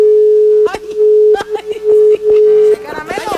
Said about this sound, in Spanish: ¿Qué pasó tú? ¿Se cortó? Se le cortó. A ver, otra vez, vuélvanos a marcar